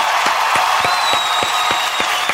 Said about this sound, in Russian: Здесь аплодисменты должны быть.